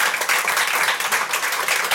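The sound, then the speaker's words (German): An audience applauds experts on a stage, giving brisk, dense clapping from many hands that stays steady and fairly loud for a couple of seconds. “Und jetzt bitte ich um einen Applaus, weil es ist wirklich toll, was heute hier auf der Bühne an Expertinnen ist.”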